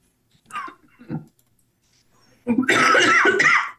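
Coughing after choking on a drink: two short, sharp coughs, a pause, then a longer, louder, harsh coughing fit.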